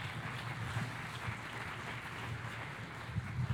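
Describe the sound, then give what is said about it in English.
Audience applause welcoming a speaker to the stage: steady, fairly faint clapping that continues through the whole stretch without a break. “So do me a favor. Welcome Rich. Give him a great big hand.”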